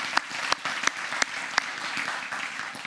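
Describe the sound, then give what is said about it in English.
Applause from an audience welcoming new sixth graders at a service. The clapping forms a steady, dense wash with a few sharper claps standing out, and it stays at an even level throughout. “Can you give a big hand? Welcome all of them.”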